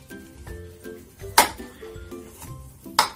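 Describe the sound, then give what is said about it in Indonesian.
Turmeric is sliced with a knife in a kitchen, marked by two sharp, bright knocks of the blade against the cutting board over a quiet, low background. “Oke, pertama kita iris kunyitnya. Sebenarnya diparut juga bisa.”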